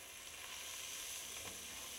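Curry powder and onions sizzle in a pot during soup cooking, giving a soft, steady crackling hiss throughout with no speech.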